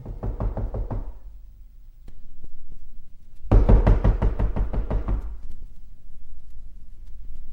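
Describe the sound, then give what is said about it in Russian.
A visitor knocks firmly on a door in two quick series of sharp raps. The second burst is longer and louder than the first, with quiet gaps before, between and after. “Гость остановился перед дверью и крепко постучал.”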